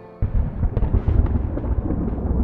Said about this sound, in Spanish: La luna se ha ocultado ahora entre nubes cárdenas y estalla el trueno